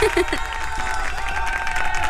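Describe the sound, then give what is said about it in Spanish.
Steady crowd applause on a music radio show for a listener dancing along, a dense, even wash of clapping that lasts the whole clip with a sustained tone running beneath it. “lo único que podemos hacer es, por supuesto, aplaudirte.”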